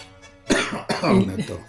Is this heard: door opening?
no